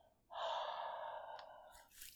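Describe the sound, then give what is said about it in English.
A long, breathy exhale onto hands to warm them, a soft airy rush that holds steady for over a second before fading, with a faint rustle at the end. “now I'm just gonna rub that into my hands a little bit, make it nice and warm. Maybe I'll use my breath.”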